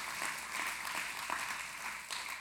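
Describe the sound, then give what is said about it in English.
Church audience clapping their hands, a faint, steady patter of many overlapping claps with no voices. “And that's something to give God a hand clap for. Let's clap our hands for that.”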